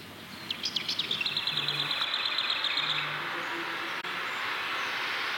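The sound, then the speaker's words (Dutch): Recorded birdsong plays at the entrance of a bird exhibition in a museum in Haarlem: rapid, high chirping trills for about three seconds that then fade into a low, steady background hum. “Heerlijk, die vogelgeluiden zo, als je binnenkomt.”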